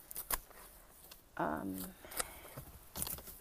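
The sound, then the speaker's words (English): Grass being trimmed: a few sharp, dry snipping clicks spaced irregularly, fairly quiet, with a brief voice in between. “now I'm gonna do a little bit of grass trimming as well”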